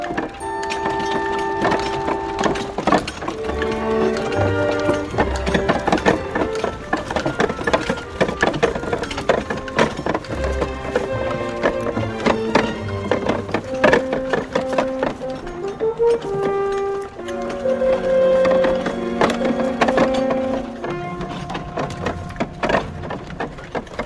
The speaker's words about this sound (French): Le char s'ébranla, les roues mal graissées crièrent, et la voûte du porche résonna sous le piétinement lourd de l'attelage.